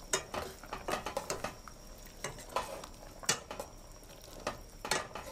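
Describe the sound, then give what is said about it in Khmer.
Quiet scraping and light clinks of food being stirred in a pan after a little salt is added, with many short, irregular strokes at a soft level. “យើងកូរវាឲ្យសព្វ”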